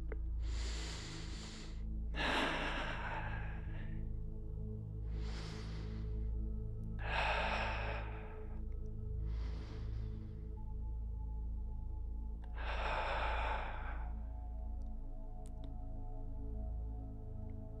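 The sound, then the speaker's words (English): Deep, slow breathing by people breathing together. Six airy rushes of breath come one after another, spaced a few seconds apart, over a low, steady hum, with no talking. “So let's take 3 deep breaths together.”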